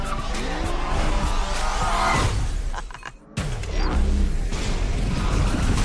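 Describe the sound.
A car skids as its e-brake is pulled, with loud, sustained tire squeal and roaring engine noise. The sound dips briefly midway, then surges back in a second harsh skid.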